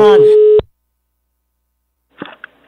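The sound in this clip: A telephone ringback tone sounds on an outgoing call from a funeral service: one steady electronic beep of about half a second, then silence and a few faint clicks.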